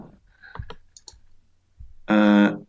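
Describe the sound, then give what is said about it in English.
A computer mouse clicks on an online map, giving a few faint, sharp clicks spaced irregularly, with a brief louder tonal sound near the end. “Right, so I'm going to click on Colchester.”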